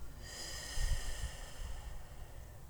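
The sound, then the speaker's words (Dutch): Soft, deep breathing during a guided relaxation exercise, a slow airy inhale and exhale with a slight snort-like swell in the middle, faint and alone without any talk. “Adem diep in en diep uit.”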